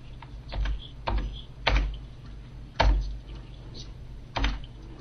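Someone writing or typing: a handful of irregular clicks and soft knocks, spaced a second or so apart against a quiet background.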